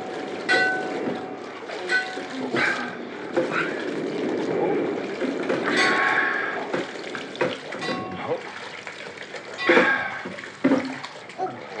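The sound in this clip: Rough sea waves churning around boats putting out to sea, a continuous loud rushing and splashing of water that surges and swells in intensity for the whole stretch.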